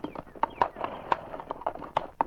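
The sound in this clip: Hooves of a ridden horse clopping up a hill trail in an irregular, many-beat rhythm, with a man's voice speaking faintly over them.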